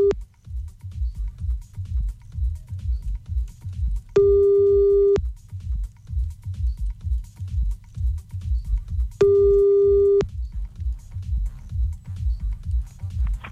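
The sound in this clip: Busy tone on a telephone line being redialed: two long, steady beeps about five seconds apart, over a low, pulsing music bed.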